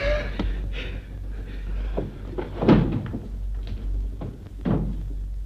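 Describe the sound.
A door being opened, heard as a few scattered wooden knocks and thumps over a steady low hum.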